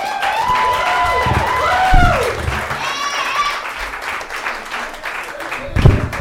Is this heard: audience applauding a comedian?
yes